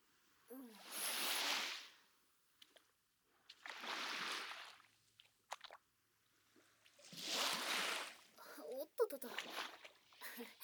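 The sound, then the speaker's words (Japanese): Sea water swishing and splashing around feet while wading at the shore: three broad washing surges that swell and fade, with small splashes and drips between them and faint voice sounds. “ちょっと足が波に取られそうになっちゃった。”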